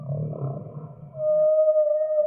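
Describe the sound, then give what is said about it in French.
Humpback whale vocalization: a low, rough moaning sound gives way to a long, steady, clear tonal note that holds to the end, with no voices present. “Et là, peut-être pour la première fois, on a le témoignage émotionnel de la baleine à bosse.”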